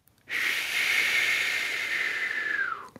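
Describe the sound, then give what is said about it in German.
One long, deep breath in a relaxation exercise gives a continuous airy hiss of nearly three seconds that stays even and drops in pitch as it fades out. “Einmal tief einatmen, Luft anhalten und langsam wieder rauslassen.”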